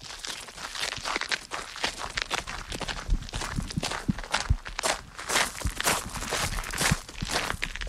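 Footsteps enter a small tower staircase in the Saint-Point castle, a series of many irregular, fairly soft steps and scuffs that continue throughout without talk.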